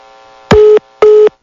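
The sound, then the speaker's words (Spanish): A telephone busy tone after a dropped call: two loud, short beeps of one steady pitch, separated by a brief gap, with nothing else around them. “Se cortó la llamada con mi compañera Laura Bates.”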